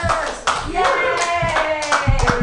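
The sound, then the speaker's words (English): An audience claps and cheers as a guest is welcomed onto a live comedy show. A steady burst of applause lasts throughout, mixed with excited shouting voices. “Put your hands together, everybody, for Brady Pearson!”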